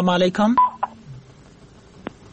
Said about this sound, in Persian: تماسشان از دست دادیم، یک تماس دیگه هم میگیریم.